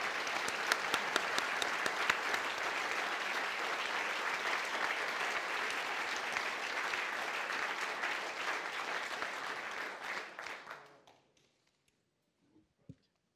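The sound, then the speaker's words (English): Steady, full applause from an event audience welcoming Ambassador Marie Yovanovitch: dense clapping holds at an even level for about ten seconds, then dies away quickly, followed by a couple of faint knocks. “So please, again, give, me a, give us a warm welcome for Ambassador, Ambassador Yovanovitch.”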